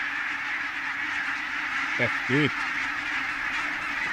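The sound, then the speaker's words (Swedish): Two short goose honks, the second slightly stronger, from a flock of about 2000 geese. They break briefly over a steady, loud background hiss. “Flocken är ungefär nästan 2000 gäss i den här flocken.”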